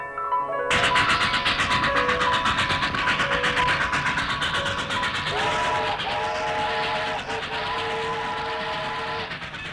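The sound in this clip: A train departing, with a loud, continuous rumble of rolling wagons and a sustained, harmonic whistle that sounds over it in the second half.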